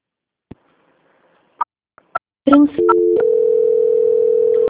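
Telephone dial tone after a dropped call: a few sharp, isolated clicks give way to a loud, steady, unbroken tone that holds to the end.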